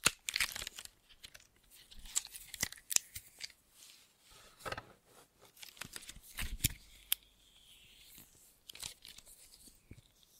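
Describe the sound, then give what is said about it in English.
Hands squish and knead a large chunk of glow-in-the-dark silly putty, giving many irregular, soft crinkly crackles and sticky squelches at a low, quiet level with no talking. “Here's a short clip of a recent video where the host, whose hands only ever appear on camera, plays with a large chunk of glow-in-the-dark silly putty.”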